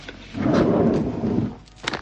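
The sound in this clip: A drawer slides open with a low, rumbling scrape that swells for about a second and then eases off, followed by a short, lighter rustle at the end.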